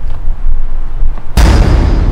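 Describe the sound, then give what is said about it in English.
Gunfire from a true crime docudrama: a low, quiet rumble is suddenly broken by a loud, sharp blast, followed by a sustained, harsh noisy tail that lasts to the end. “Stop shooting.”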